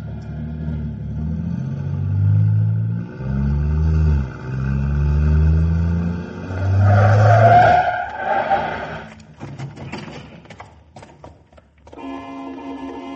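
A Cadillac drives off, its engine giving a low, heavy rumble that rises in revs several times before a brighter, higher-pitched whine cuts in. The car noise fades toward the end.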